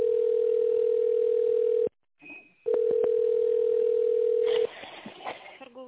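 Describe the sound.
Telephone dial tone while placing a call: a loud, steady single-pitched hum cuts off into a short quiet gap with a faint higher tone, then returns with a few sharp clicks before giving way to faint line noise.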